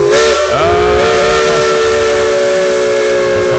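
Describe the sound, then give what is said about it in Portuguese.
A steam locomotive whistle sounds in one loud, sustained blast with a steady tone and an airy hiss beneath it, as the train runs through the mountains of Minas Gerais. “Fumaça, nossa locomotiva rasgando as montanhas de Minas, rasgando as montanhas de Gerais.”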